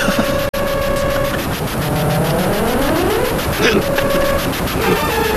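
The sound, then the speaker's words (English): A chaotic train crash: a loud, continuous din of rumbling and whining tones, some sweeping upward, with a sudden brief cutout near the start. “Oh no! I think that was the second time in 2 weeks that we got in a train crash. A crash landing on a train.”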